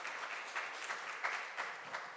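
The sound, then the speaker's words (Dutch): A church audience gives a visitor a warm welcoming round of applause: brief, soft, steady clapping with no voices over it. “We zouden willen vragen aan de gemeente om deze persoon een warm welkom applaus te geven.”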